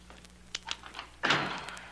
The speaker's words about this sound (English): what's the matter with this lock? Oh, it's not the lock, it's me. There.